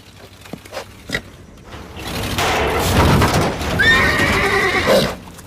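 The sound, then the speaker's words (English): A rearing colt neighs as a truck drives past a crumbling wall: a few dull thuds, then a swelling rumble, over which a loud, quavering whinny rises and falls before the noise fades. “A truck drives along the wall and Black rears up. He runs off. No, wait! Come back! Don't leave me! Nira runs after the horse, then stops.”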